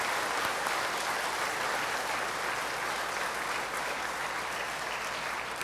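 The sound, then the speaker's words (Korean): Churchgoers clapping in thanks and welcome for a pastor during a service, a thick, uniform patter of many hands sustained at a steady level from start to finish. “우리 잠깐 일어서셔서 인사하실 때 우리 감사하다는 환영의 축복에 박수를 한번했습니다.”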